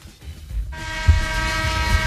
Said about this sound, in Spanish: Qué flojica te ha salido hoy la bocina.